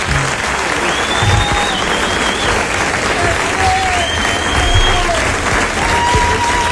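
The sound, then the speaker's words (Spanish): A crowd claps in loud, sustained applause that fills the whole stretch, with voices mixed into the clatter. “Un aplauso grande para el Pepe, maestro.”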